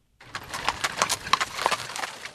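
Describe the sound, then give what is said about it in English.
Clip-clop of horses pulling jet-black Amish buggies as they arrive at a gathering in Arcola, Illinois: many irregular hoof knocks and wooden rattles, fairly steady and moderately loud, with no talking. “Clouds of steam billow from a straining horse's nose as dozens of Amish families rein in jet black buggies.”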